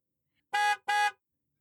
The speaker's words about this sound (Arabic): أسمع منبه الحافلة